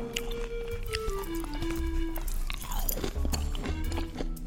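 Biting and chewing a fresh, tangy fruit: crisp crunches followed by continuous wet, juicy chewing and squishing, close and steady throughout.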